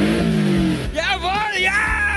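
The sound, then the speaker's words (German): A Porsche Cayman S sports car engine revs briefly, a loud droning roar whose pitch drops away before a voice talks over the fading engine noise. “Porsche Cayman S, Jungs!”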